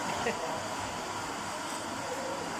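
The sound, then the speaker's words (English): A coffee grinder grinding beans in a coffee shop, a steady, loud roar that stays constant throughout, with voices mixed in. “Excuse the noise, like I say, in a coffee place and they're grinding those magic beans.”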